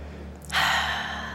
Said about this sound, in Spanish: toma una gran y profunda inhalación por tu nariz y exhala todo el aire por la boca.